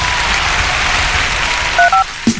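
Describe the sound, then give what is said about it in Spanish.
Applause from an audience, a continuous spatter of clapping that holds steady before a few short electronic tones cut in near the end. “¡Aplausos!”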